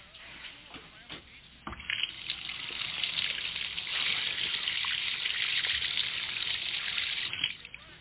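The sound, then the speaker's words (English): Water runs down a sink drain in a steady, rushing stream. It starts soft, swells after about two seconds, holds evenly and fades near the end. “There's nothing like a nice, free-flowing drain.”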